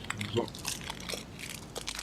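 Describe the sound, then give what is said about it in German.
Plastic bag crinkling with faint crunching while a leftover Christmas spiced almond is eaten, many irregular small crackles over a low background, with talking present. “Ich esse eine Gewürzmandel, die noch von Weihnachten übrig ist. Nicht in so einer Plastiktüte. Du musst ein bisschen knistern.”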